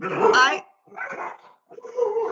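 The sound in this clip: A dog barks in three separate bursts with short gaps between them. The first bark is the loudest and longest, and the later two are rougher and slightly quieter.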